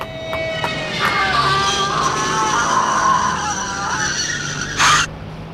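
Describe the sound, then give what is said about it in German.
Tyre squeal of a car skidding on a street, made as a radio drama sound effect: a sustained, high, whining screech that holds for several seconds, then a short, loud burst of noise near the end. “Achtung, der Wagen!”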